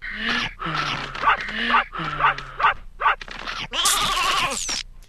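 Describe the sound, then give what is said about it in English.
Robot sheep in a video game, herded by a robot dog, make a rapid series of synthetic, bleating cries with wavering pitch, ending in a longer, harsh, raspy sound. “you have to be a robot dog and herd robot sheep that sound like this for whatever reason.”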